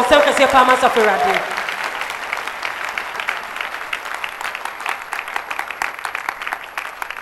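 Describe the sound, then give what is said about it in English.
Congregation clapping their hands during a church service, a dense, steady patter of many hands that runs through the whole clip, with a voice heard briefly at the start before the clapping takes over. “I thought you clap your hands for the Lord.”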